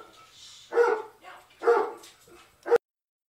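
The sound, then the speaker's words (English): Dogs barking indoors: three sharp, fairly faint barks at even intervals, the last one short and abruptly cut off, followed by silence. “Sorry about the dogs.”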